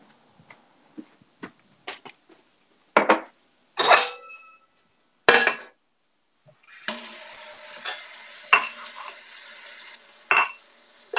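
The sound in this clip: Tea being made in an old-fashioned tin pot: a few sharp metallic clinks and knocks come first, then a steady rush of running water with some further clatter.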